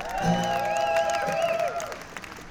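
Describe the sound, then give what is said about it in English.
A concert audience applauds and cheers to welcome a bluegrass band's mandolin player. Steady clapping carries a few rising whoops and some ringing tones, then thins out toward the end. “please give it up for Nick Dumas. And over here on the mandolin, shredding, flat picking, guitar, please make welcome Mr. Chris Luquette.”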